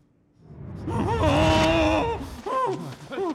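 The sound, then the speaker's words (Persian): Heavy, strained breathing from a person in a tense dramatic scene: a voiced, gasping exhalation that swells loudly and holds, followed by a few shorter, groan-like breaths. “نمیخوام اون صدای نفس تو بشنوم.”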